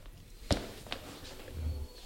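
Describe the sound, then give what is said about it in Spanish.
Footsteps of someone hurrying into a football press room after a match defeat, two distinct thuds standing out over a faint, quiet murmur. “¿Qué viene corriendo o qué? Son los pasos y todo.”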